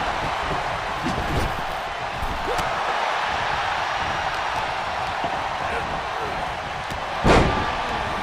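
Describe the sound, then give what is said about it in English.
A wrestling gut-wrench slam in a video game lands as one sharp, heavy thud near the end, rising out of a steady, noisy background. “Gut-wrench slam.”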